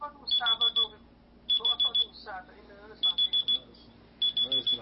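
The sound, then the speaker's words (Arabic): An alarm clock rings in repeated bursts of rapid, high-pitched beeps, each burst a short run of pulses separated by brief gaps. A man talks underneath. “المنبه يقول”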